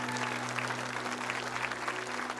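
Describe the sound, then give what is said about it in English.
An audience clapping during a church altar call, steady, dense applause at a fairly soft level throughout, carried over a constant low electrical hum. “Come on, keep clapping.”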